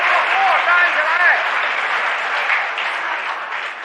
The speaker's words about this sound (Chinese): 这是全场观众再次起立，为我们中国队员取得最后的胜利而欢呼。